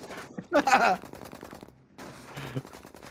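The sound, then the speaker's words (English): Gunfire from a film shootout involving FBI agents: a loud, rattling burst of rapid shots, followed by quieter stretches where voices can be heard. “Those FBI agents waited that long to shoot back?”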